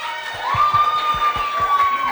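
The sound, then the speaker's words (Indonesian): Audience cheering and clapping for a radio presenter at a broadcasting school event. A long, steady high whistle rides over a run of rhythmic, thumping claps. “Keren, tepuk tangan dulu dong.”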